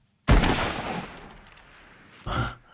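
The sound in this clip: Gunshots ring out while hunting in a video game: a loud, sharp blast with a long fading tail, then a second shorter report about two seconds later.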